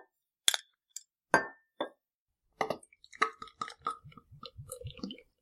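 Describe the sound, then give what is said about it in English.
A bottle of beer being opened and poured: a few sharp glassy clinks and clicks, then a run of quick bubbling, gurgling pulses as the beer flows. Quiet throughout. “I don't know if I've ever had this beer, so I'll be anxious to try it and see what my opinion is. You haven't? No. So let's open it up.”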